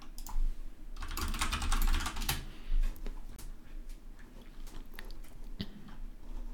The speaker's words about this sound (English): I just typed loud, I'm sorry.